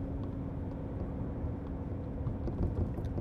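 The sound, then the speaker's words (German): A car engine laboring up an 18 percent hill in third gear, a steady low droning rumble with a faint tonal hum held throughout. “Dritter Gang berghoch, 18 Prozent. So. Zweiter Gang runter, Kurve.”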